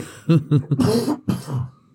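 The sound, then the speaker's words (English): A person coughing hard in a rough fit: three short harsh bursts, then longer, noisier hacking coughs. Loud, with no talk. “Just coughed out a lung.”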